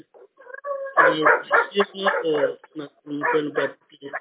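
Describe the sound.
A dog barks in the background of an online meeting, with a few sharp barks mixed in under a person talking.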